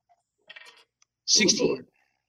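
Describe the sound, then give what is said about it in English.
Dice are rolled during a tabletop role-playing game. A brief clatter of light clicks is followed by a louder burst, and a voice is heard. “Oh, that was with the +1, so I rolled a 15 on the dice.”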